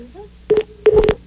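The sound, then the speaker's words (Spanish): Tones of a telephone call that has been cut off: two short bursts of electronic beeping, each a steady mid-pitched tone broken by brief clicks, stand out over a quiet line. “Bueno, pues parece que la llamada se nos cortó.”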